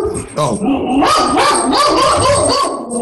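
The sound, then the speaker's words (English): A person's voice imitates the big bark of a medium-sized dog, making a few deep, rough, barking yelps in quick succession. “that's me throwing my voice. All right. So what kind of dog? Colt. It's a big bark. It's a medium sized dog with a variety of lineages.”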